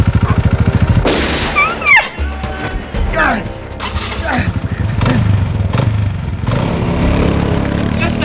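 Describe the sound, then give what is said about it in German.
A quad bike engine revs hard as the rider races straight toward the listeners, with loud swooping rises and falls in pitch and a rough, throaty roar after a brief musical opening. “Ein Motorrad? Nein, ein Mann auf einem Quad. Der rast direkt auf uns zu.”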